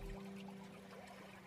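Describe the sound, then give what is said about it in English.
Steady stream of water flowing toward a small waterfall in a quiet forest at sunrise, a faint, continuous, even rushing wash with no distinct splashes. “It flows smoothly and calmly across your body. You can hear the steady stream leading to a small waterfall nearby.”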